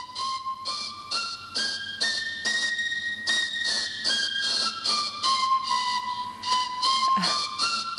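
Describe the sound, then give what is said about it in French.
A reconstructed prehistoric flute modeled on those from Isturitz cave, with three or four finger holes, being played: breathy, whistling notes played alone, stepping between several pitches in a near-scale, each held briefly in a steady sequence. “Et elle ressemble aussi à ces flûtes nombreuses qu'on a trouvées dans la grotte d'Istüritz. Donc, il y a trois, voire quatre trous de jeu pour la plus complète. Alors, on a reconstruit ce genre de flûte. On va écouter ce que ça donne quand on en joue.”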